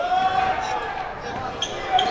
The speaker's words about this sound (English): Live dribble.